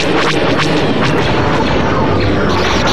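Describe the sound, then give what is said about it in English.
A loud explosion blasting the Imperial Senate: a dense, roaring blast that stays harsh and continuous for the whole stretch, with no voices. “Where is the Imperial Senate? I think I just blasted it.”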